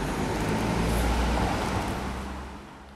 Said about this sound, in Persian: فقط گهگداری صدای ماشینی موتوری میاد و این سکوت رو میشکنه.